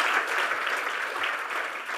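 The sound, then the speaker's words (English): Audience applause for guests on a studio business show: dense, steady clapping that holds at an even level for about two seconds with no talk over it. “And Emma Head from Sweet Mickey, please give them a round of applause.”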